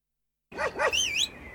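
A dog gives a few short, high-pitched yelping barks in quick succession, fairly quiet and alone, with a faint hiss behind them.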